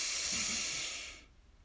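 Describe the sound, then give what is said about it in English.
A deep breath drawn in: one long, airy hiss that holds steady for about a second, then fades away, with no talk around it. “So breathe in”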